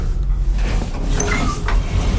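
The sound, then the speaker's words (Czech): Elevator doors sliding open on the sixth floor of the main building at Kavčí hory in Prague, heard as a steady, low mechanical rumble and hiss with a few faint high tones partway through. “Dveře výtahu se otevřely.”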